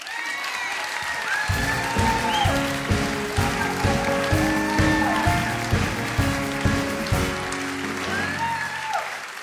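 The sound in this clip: Audience applause welcoming a guest author onto a live stage show: steady, dense clapping that lasts the whole clip, with pitched music playing underneath it.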